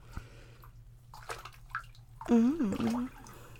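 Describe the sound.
Water sloshes and splashes as a child is washed in a bathtub. Soft movements come first, then a louder swell of splashing while a child's high voice rises and falls over it.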